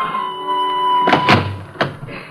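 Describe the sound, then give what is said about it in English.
Knocking sounds on the door of a small New York apartment, a few dull raps over a faint steady tone, the second knock the loudest. “While in the hall, Tessie, the maid, hurries to answer a knock on the door.”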